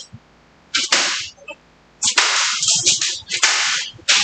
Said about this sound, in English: Now they've got the flogger and the shoehorn. They're hitting them on the ass.